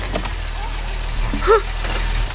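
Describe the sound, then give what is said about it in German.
An MG car arrives with its engine running, giving a steady low hum that holds through the whole stretch, with a brief brighter tonal sound rising above it midway. “Da kommt ein Auto. Aber das ist nicht irgendein Auto, sondern mein MG.”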